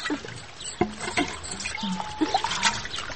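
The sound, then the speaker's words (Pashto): Warm water trickles in a faint, uneven dribble, with a few irregular soft splashes. “دې ژمي کې دا اوبه څومره ښې ګرمې دي.”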